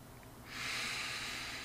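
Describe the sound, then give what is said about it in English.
A long, deep breath drawn during a guided tantric awakening session. It starts after a brief quiet moment and becomes a steady, breathy hiss that holds to the end. No talking is heard. “Let's take a deep breath there.”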